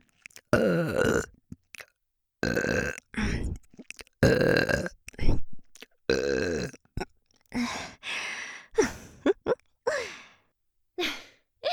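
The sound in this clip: A woman burping many times in a row, loud voiced belches separated by short silences, some long and drawn out, others shorter and more clipped.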